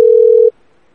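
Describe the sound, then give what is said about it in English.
A telephone tone on a call back: one steady, single-pitched electronic tone holds loud for about half a second, then cuts off abruptly into near silence. “I'm calling back.”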